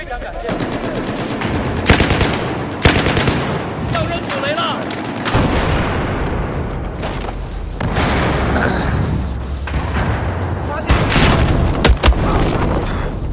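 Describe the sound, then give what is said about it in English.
Video game combat in Battlefield 4 as a tank shells the building the player is in. Rapid machine-gun fire runs throughout, broken by several loud, heavy booms. “Something was blowing up the building I was in. Oh, yep, that's a tank.”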